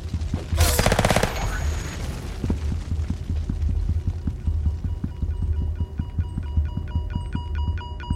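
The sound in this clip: Machine gun fire in a video game, a long steady stream of many evenly spaced shots over a low throbbing hum, with a brief louder burst of noise near the start.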